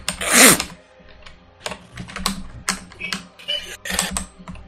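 Clicking on a computer, heard as a few sharp irregular clicks and key taps with quiet gaps between them.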